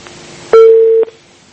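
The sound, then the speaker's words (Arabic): A telephone busy signal after a dropped call: one loud, steady, mid-pitched tone lasting about half a second, starting and ending abruptly against a faint background. “قطع اتصال.”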